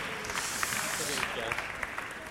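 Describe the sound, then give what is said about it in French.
An audience applauds at a film festival awards ceremony as a feature-film jury president is called up: a dense, even roar of many claps, steady throughout, with voices heard over it. “Qu'on applaudit. Fermement. Fermement.”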